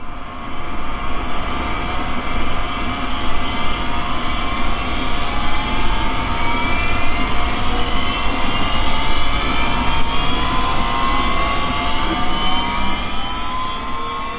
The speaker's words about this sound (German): die Triebwerke sind hochgefahren